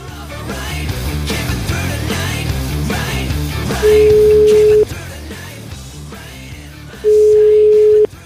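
A telephone ringback tone sounds as a call is placed: two long, steady, mid-pitched beeps about three seconds apart, loud over a continuous bed of music.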